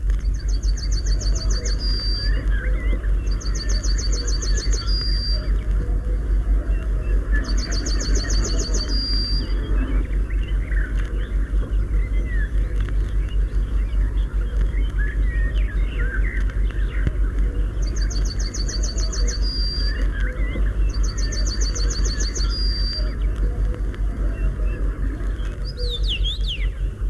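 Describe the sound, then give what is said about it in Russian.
A male yellowhammer sings from the top of a small tree, giving five bouts of a rapid, high, buzzy trill that each end abruptly. The bouts are spaced apart over a steady low rumble, with faint scattered calls from other birds. “Это, сидя на верхушке деревца, поет желтогрудый самец овсянки.”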